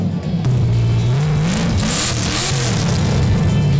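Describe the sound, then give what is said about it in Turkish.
A classic car engine revs in neutral at a classic car show, giving a loud, deep rumble whose pitch swells and falls with the throttle blips. “Şu anda boşta gaza basıyorum. O çıkan sesi sizler de duyuyorsunuz.”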